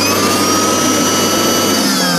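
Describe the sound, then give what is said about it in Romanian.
A vacuum cleaner runs with a loud, steady whirring roar and a high whine layered over it, holding continuously without pause. “Îmi place să dau cu aspiratorul.”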